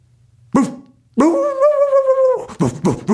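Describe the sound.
A human voice imitates a dog barking, standing in for a mouse confronting a cat: one short loud bark, then a long sustained drawn-out cry, then a few quick barks close together.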